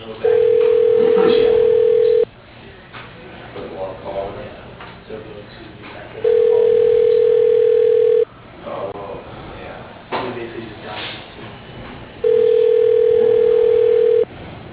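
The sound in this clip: Telephone ringback tone plays while a call is transferred through an automated phone system: three long, steady, mid-pitched tones of about two seconds each, evenly spaced, with low, noisy line hiss in the gaps.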